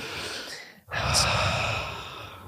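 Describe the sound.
Deep, slow breathing from a person during a calming breathing exercise: a long, airy breath, a brief silent pause, then a second, louder breath that slowly fades.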